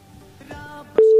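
A telephone tone sounds while a call is placed, a steady pure tone that starts abruptly near the end, loud and unbroken, after a moment of faint clicks and handling noise.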